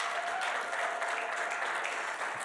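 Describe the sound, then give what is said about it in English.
Audience applause for guests at a church service at the Rock Church: a dense, steady wash of many hands clapping, continuous and fairly loud throughout, with no talk over it. “Will you guys give it up for our guests this morning?”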